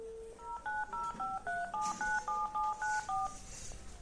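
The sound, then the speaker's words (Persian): Touch-tone keypad beeps as a phone number is dialed on a telephone: a brief lower tone, then eleven quick, evenly spaced dialing tones in a steady rhythm, all fairly faint. “دو ساعت پیش به هم زنگ زد از همین شماره. دوباره گرفتمش.”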